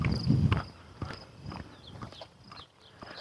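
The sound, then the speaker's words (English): Footsteps walk along a narrow beaten footpath through long grass, each step a soft rustling swish that lands in an even, unhurried rhythm, a heavier brush at the start and then a steady series of moderately loud steps with no talk. “And walk down through this long grass. I have a path beaten through the grass. It's just a narrow little footpath.”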